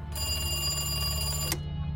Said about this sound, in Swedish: En telefon ringer på ett kontor med dämpad belysning.